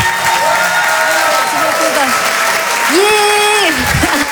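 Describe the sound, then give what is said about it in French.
Audience applause for a comedian taking the stage, a dense, steady wash of clapping mixed with crowd noise that holds loud through the whole stretch, with some tonal sound running over it. “Je vous demande de l'encourager. Faites du bruit, s'il vous plaît, pour Lise de Hurtevent.”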